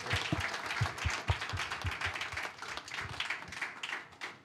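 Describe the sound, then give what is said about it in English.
Scattered applause from a church audience for a translator: loose, irregular hand claps with uneven bursts that thin out and fade toward the end. “Can we please have a round of applause for our translator?”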